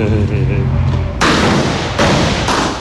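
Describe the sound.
Two loud gunshots at an outdoor shooting range in the countryside, each a sharp, booming crack about a second apart. A voice talks just before the first shot.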